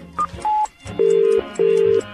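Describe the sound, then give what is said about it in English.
Telephone tones sound while calling a phone box late at night: four clean electronic beeps, the first two short and higher-pitched, the last two longer and lower, with quiet gaps and faint line noise between them. “it's tiring phoning phone boxes late into the night.”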